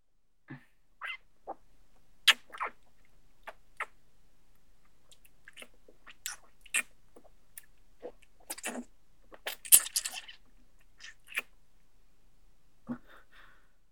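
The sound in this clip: Wet kissing sounds, many soft moist smacks and lip pops in an irregular rhythm, quiet and intimate, with no speech.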